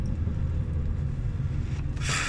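A car drives down Pender Street with a steady low rumble of road and engine noise that holds an even level throughout, ending in a brief hiss of higher noise.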